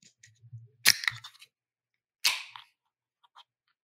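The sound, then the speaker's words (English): Beer cans crack open, one of them a Darwin Brewing tangerine wheat beer: two sharp snaps, each followed by a short fizzing hiss, with a few faint clicks and handling sounds between them. “Do you want to go ahead and crack your beer and see if you can beat me? I do. Let's see.”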